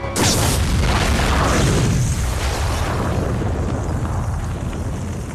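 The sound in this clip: A car bomb explodes in a sudden, loud blast at the start, followed by a long rumbling roar that slowly fades away.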